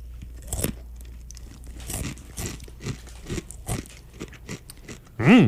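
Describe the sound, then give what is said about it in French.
Loud crunchy chewing of a snack mix with honey-coated pieces and chocolate, with many irregular crisp crunches and bites, then a short, loud voiced sound at the end. “C'est un petit sac avec des chevelises au miel, du chocolat et des trucs comme ça. Je vais me mettre dans la bouche, OK?”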